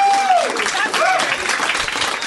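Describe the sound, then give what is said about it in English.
Applause from a comedy show audience, a dense clatter of clapping that is moderately loud and tapers slightly, with a brief voice-like tone at the start. “I'm able to accept your applause.”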